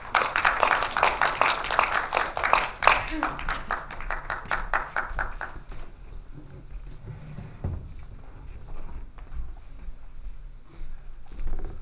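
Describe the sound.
An audience applauds to welcome a lecturer: a dense burst of many hands clapping holds for about five seconds, then thins out and fades to faint scattered noises.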